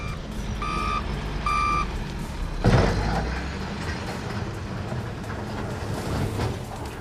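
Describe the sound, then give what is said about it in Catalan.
Reversing beeps from excavators entering a settlement in Palma, Mallorca: two short bursts of tonal beeping over a steady low rumble of heavy machinery, then a brief louder knock. “El so és de les excavadores que avui han tornat a entrar al poblat”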